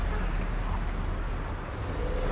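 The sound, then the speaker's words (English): A white SUV drives on a city street, its engine and tyre noise a steady, unbroken road rumble at even loudness throughout. “The man drives a white SUV on a city street.”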